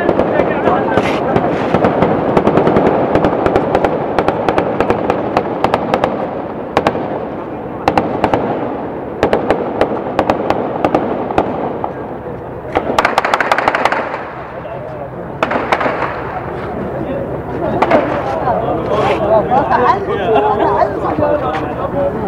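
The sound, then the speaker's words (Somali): Gunfire from federal government troops, with many sharp shots in rapid bursts and scattered single cracks, loud and continuous, with people's voices and chatter mixed in between the volleys. “Mararka qaar xataa waxaad arkaysaa ciidamada dowladda federaalka ah oo xabadda uun keligood iska qufaya. Marka hadda jawiga haddaan ku laabano sida uu yahay, waa sidatan.”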